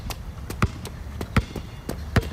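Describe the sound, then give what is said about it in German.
A basketball bounces during a 3x3 basketball game, with three heavy thuds at a steady pace over a noisy background and fainter ticks in between. “Das muss Basketball, also 3x3 ist ja dabei. Das ist so eine besondere Form von Basketball.”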